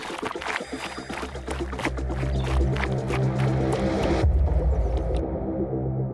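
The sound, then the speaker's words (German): Six girls running off in a hurry on a night walk, their quick footsteps thudding rapidly over a low rumbling background before the sound cuts off abruptly. “Los, laufen wir schnell zurück.”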